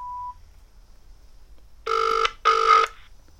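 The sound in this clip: A short single beep, then, after a pause, a telephone ringing in two brief electronic bursts of a buzzy tone, with quiet between and after them.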